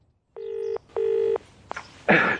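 A telephone is dialed with two steady keypad tones of similar pitch, followed by a sharp click and a short burst of hissy noise.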